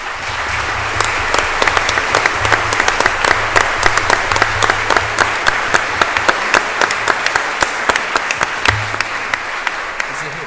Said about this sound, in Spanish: para quien pido que le demos un gran aplauso